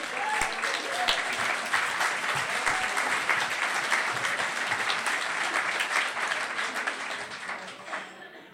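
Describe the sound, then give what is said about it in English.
Audience applause greeting a comedian at an evening show: loud, sustained clapping at a steady level for about eight seconds, easing slightly only at the very end. “the applause starts even before I reveal his name”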